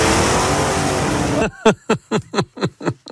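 A petrol car engine revs in a loud, dense, sustained roar, then breaks into a rapid series of sharp, evenly spaced bursts.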